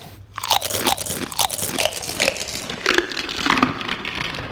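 Loud, crisp crunching as Pringles potato crisps are eaten up in a tree, with many sharp bites and chews in a steady, repeated rhythm and no talking.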